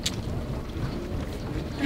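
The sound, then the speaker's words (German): Steady wind rushes over a sailing boat under sail on a multi-day voyage toward the Danish South Sea, with the deck planks vibrating. A dense, even roar of wind noise and water continues for the whole short stretch. “die Planken vibrieren halt so, aber der Wind ist so super”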